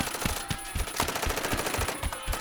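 Gunfire rattles in a rapid automatic stream, many evenly spaced thudding shots with no pauses, loud and continuous from start to finish.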